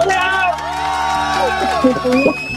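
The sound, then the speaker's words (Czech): Many voices of a group of people at a caller's end of a phone line, overlapping talk and calls, continuous and moderately loud. “To je radosti, vás tam je teda hodně, poslouchám tam hlasy.”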